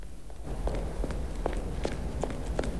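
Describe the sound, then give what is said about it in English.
Hurried footsteps of someone running up a flight of steps, a quick, uneven series of light, faint thuds over a steady background hiss. “Harry emerges and gallops up a flight of steps to give chase.”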